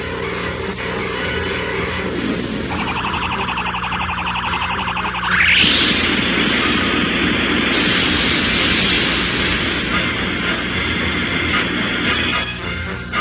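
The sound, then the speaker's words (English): Synthesized spaceship effect for Zarkon's attack ship in flight: a noisy, pulsing electronic drone, broken midway by a rising whoosh, then a thick roaring hum that holds steady to the end. “Look out ahead! It's one of Zarkon's attack ships that stayed behind to mop up.”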